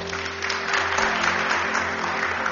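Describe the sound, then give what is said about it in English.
Steady applause from an audience at a religious gathering, an even wash of clapping that holds at the same level throughout without pauses. “Clap for her.”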